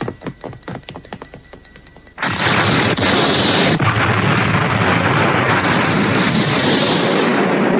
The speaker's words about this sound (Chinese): 快啦，屋里面有计时炸弹。